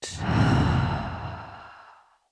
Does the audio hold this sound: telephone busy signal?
no

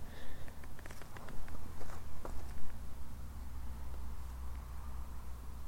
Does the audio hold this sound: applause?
no

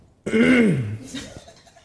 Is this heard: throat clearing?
yes

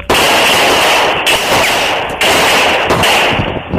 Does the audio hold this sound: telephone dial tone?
no

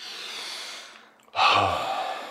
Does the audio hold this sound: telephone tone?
no

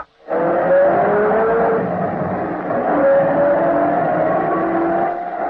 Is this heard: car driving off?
yes

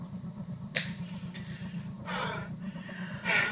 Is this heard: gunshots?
no

